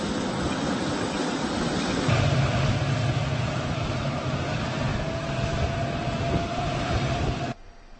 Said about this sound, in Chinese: 习近平乘坐的专机抵达机场